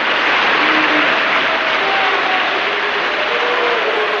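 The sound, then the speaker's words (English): Audience booing: a dense, sustained crowd roar with faint drawn-out vocal tones running through it, steady and loud from start to finish. “You hear people booing in the audience.”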